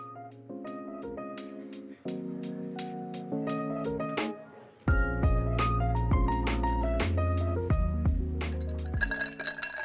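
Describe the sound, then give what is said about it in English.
Clinking of a cup holding a third coffee of the day: many bright, rapid clinks with ringing tones, growing fuller and denser partway through as deeper sustained tones join. “That's the sound of my third cup of coffee of the day.”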